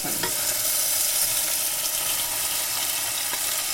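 Tomatoes sizzle in a pan as they are stirred with vegetables. A steady, even hiss of frying runs throughout, broken by a couple of brief clicks from the stirring.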